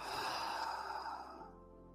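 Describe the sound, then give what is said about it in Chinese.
A slow, deep exhale during a guided relaxation exercise: one soft, breathy release lasting just over a second, then fading into quiet. “做一个深呼吸，再来一个深呼吸，深深吸一口气，吐气的时候放松。”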